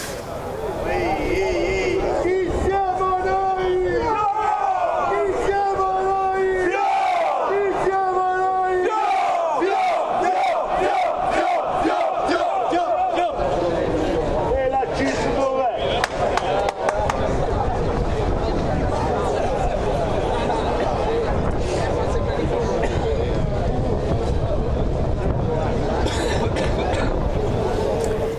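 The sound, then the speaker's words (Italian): Acciaierie d'Italia steelworkers' crowd singing and chanting outside the Genoa prefecture: a loud, dense mass of voices, with rhythmic sung phrases early on, then sustained shouting and crowd noise throughout. “Sentite canti e cori, allora vado da Aurora Bottino, che nel frattempo è arrivata davanti alla prefettura.”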